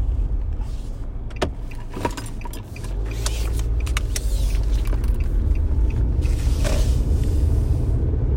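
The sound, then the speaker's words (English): A car is driving, heard as a constant loud low rumble of engine and road noise. A few light clicks and creaks cut through it. No one speaks. “So I'm driving right now”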